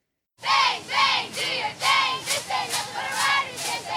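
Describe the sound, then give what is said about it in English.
A crowd at a Roosevelt High School football scrimmage in Des Moines, with cheerleaders, erupts after brief silence into rhythmic, repeated bursts of chanting and shouting that rise and fall in steady pulses. “A football scrimmage for Roosevelt High School in Des Moines is a welcome back for Friday Night Lights, complete with cheerleaders and the Rough Riders marching band.”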